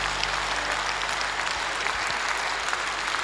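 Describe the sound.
Applause from an audience at a singing performance: dense, steady clapping that stays evenly loud from start to finish.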